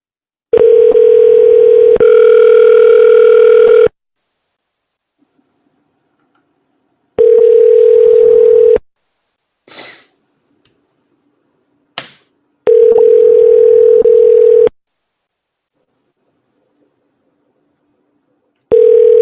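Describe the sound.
Telephone tones sound while a prank call is being placed. Several long, steady, loud bursts of tone are separated by silences, with a few brief clicks in between.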